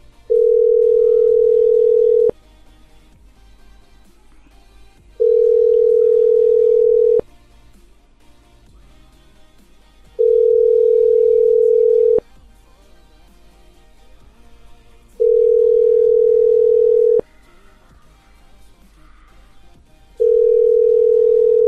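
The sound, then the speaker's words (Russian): A telephone line after dialing a number plays a tone: five long, steady beeps of about two seconds each, separated by quiet gaps of about three seconds. “Все, набираю на первый номер.”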